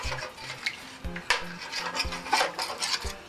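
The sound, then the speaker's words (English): Stirring a flour and bouillon cube sauce in a pot: a spoon scrapes and clinks against the pot in soft, irregular strokes, with many small knocks and rasps and no talking. “And stir it for a little while because you want the flour and the cube bouillon to dissolve and get a little smooth.”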